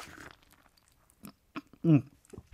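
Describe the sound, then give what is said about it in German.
Biting into half a lemon brings a few faint, wet bites and chewing noises, with one noticeably louder crunch near the end of the short clip. “Wenn ich jetzt mal in diese halbe Zitrone hier beiße,”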